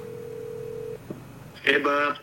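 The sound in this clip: Phone call being placed: a steady line tone holds for about a second, cuts off with a click, then a voice comes on the line.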